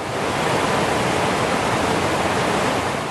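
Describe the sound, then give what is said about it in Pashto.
Clear, sky-blue river water rushes noisily through the Blue Water area near Kalam, a loud, dense and unbroken roar that holds steady throughout with no pauses or other sounds. “د دې سیمې پاکي اوبه د ډیر شور سره بهیږي”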